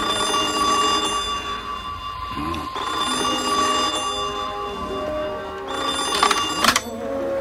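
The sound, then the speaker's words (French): A telephone bell rings in a film scene set by the seaside in the era of seaplanes, a loud, bright electric trill repeating over several seconds with no talk. “quand soudain, le téléphone sonne.”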